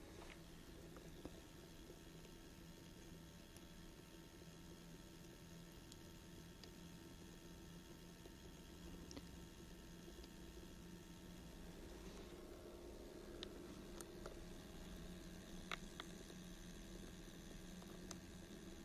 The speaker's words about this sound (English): A little bit of trickling of water that is so charming.